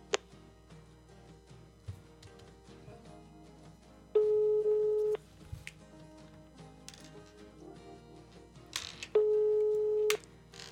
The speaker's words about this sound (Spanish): Estoy en estos momentos marcándole. A ver si está por ahí.